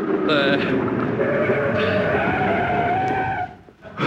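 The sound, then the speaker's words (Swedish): Tires squeal as a car brakes hard toward a curb on a town street, a loud, sustained, tonal screech over engine rumble that holds for a few seconds before cutting off abruptly. “Stanna vid trottoaren här borta nu, ni snäller. Vid trottoaren. Nej, inte på trottoaren, vid trottoaren. Bromsa nu då, bromsa.”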